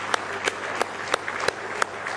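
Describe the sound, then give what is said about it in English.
A church audience claps in a steady, even rhythm of sharp hand claps over a continuous bed of crowd applause, fairly soft overall. “give him a real big hand clap of praise tonight if you love him.”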